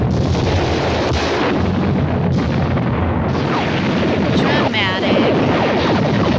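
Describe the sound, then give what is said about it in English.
A ray gun sound effect from a 1953 film: a loud, continuous roaring blast with dense crackling noise. A warbling, wavering sweep rises out of it near the end. “I like that they use the same ray gun sound in Mars Attacks.”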